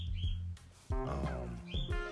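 Pet cockatiel chirping in the background: a few short, high whistled calls, some near the start and more near the end, standing out against a quiet backdrop.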